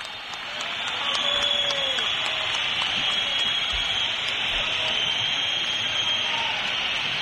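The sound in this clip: Massed whistling from a football stadium crowd protesting at the end of a match: a dense, shrill, sustained wall of whistles over broad crowd noise, steady and loud throughout with no individual voices standing out.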